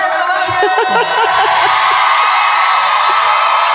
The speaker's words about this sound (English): are they yelling at me? Huh? Are they yelling at me?